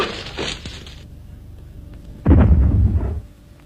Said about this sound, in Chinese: 推土机手吴海波屋里又发出了爆炸声。这声爆炸不是地雷，也不是炸弹，是吴海波进行的小试验。